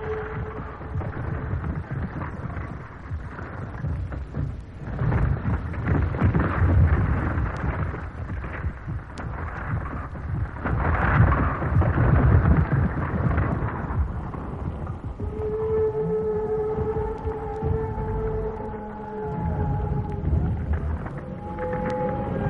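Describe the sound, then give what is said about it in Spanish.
Giant dinosaurs stampede in a dramatized prehistoric scene: a heavy, thunderous rumble surges and swells twice, then drawn-out tonal bellows rise over the continuing roar toward the end. “¿Un terremoto? No. Mirad. Una estampida de animales. Vienen hacia aquí. Son gigantescos dinosaurios.”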